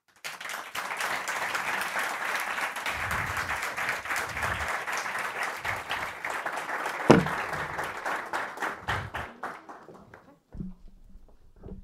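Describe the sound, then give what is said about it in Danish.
An audience applauds a museum director of Copenhagen Museum with dense, steady clapping that holds for about ten seconds, then thins out and fades near the end. “stort tillykke og give en rigtig stor hånd til Louise Jacobsen, museumchef Københavns Museum.”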